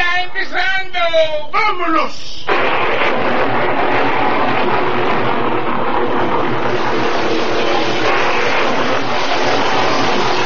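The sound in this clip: A vehicle engine is started and revved, giving a loud, dense, steady roar that runs for several seconds after a brief shouted voice at the start.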